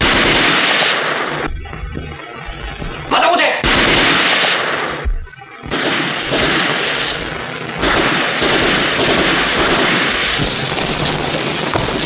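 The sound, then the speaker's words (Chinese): Heavy gunfire in a wartime battle scene, loud and dense, with rapid overlapping shots and bursts running almost continuously, broken by a couple of brief lulls. “再不出来我就开枪了。”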